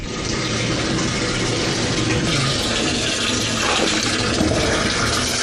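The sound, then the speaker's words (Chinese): Water runs from a tap in a new home, a steady, full hiss of flowing water that continues unbroken from start to finish with no voices. “如今在新家拧开水龙头就有清泉”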